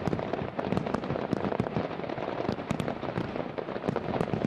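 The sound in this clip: Fireworks finale bursting: a dense, continuous barrage of sharp cracks and booms with many overlapping explosions and crackles, loud and unbroken throughout, with no voices.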